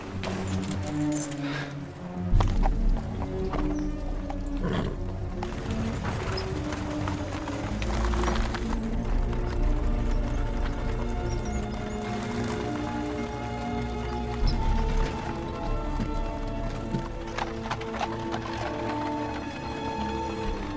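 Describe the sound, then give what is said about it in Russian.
Hooves clip-clop as a horse-drawn carriage leaves town, keeping a steady, moderately loud rhythm that carries on without a break and blends into a dense, continuous background. “Повозка выезжает за пределы города.”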